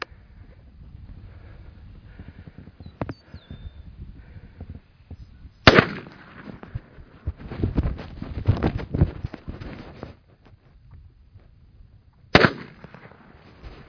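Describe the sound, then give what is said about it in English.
Two loud, sharp shotgun blasts fired at a turkey gobbler, about seven seconds apart, with a stretch of irregular rustling noise between them and quiet background otherwise. “two shots fired, one turkey down.”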